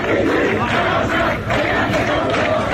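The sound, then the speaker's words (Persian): University students chanting protest slogans against campus security, heard as a loud, dense crowd roar with rhythmic pulses of many voices shouting together. “دیگه جوری شده بود که دانشجوها تو خیلی از دانشگاه ها اینجوری شعار دادن علیه حراست دانشگاه”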